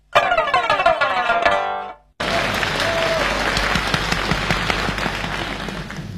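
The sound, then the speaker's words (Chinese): Audience applause at a Chinese crosstalk comedy show: dense, loud clapping from a crowd begins after a stretch of Peking opera-style singing and a brief pause, then carries on steadily to the end. “谢谢朋友们的掌声。”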